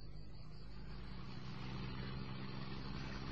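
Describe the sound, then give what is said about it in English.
Low, steady engine rumble of a car creeping slowly along a dusty road, a constant drone with no breaks or changes in pace. “Can't you close your window, Leslie? There's so much dust. Well, I can't get a quick shot if I need to. Well, you won't be able to anyway if you're driving. If I'm going slowly enough, I can whip the camera straight up and take it.”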